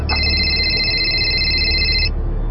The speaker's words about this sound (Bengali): Sir আপনার phone বাজছে।